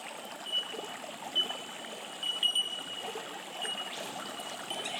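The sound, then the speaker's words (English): Stream water flows with a faint, steady trickling and gurgling, with small bubbling swells rising and falling throughout. “Allowing the sounds of the stream to activate that sense of flow within your body, within your energy being.”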